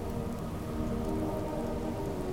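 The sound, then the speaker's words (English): Heavy rain comes in from the sea, a dense, steady hiss of falling water that holds even throughout, with a low, faint hum running beneath it. “Great rain came out of the sea,”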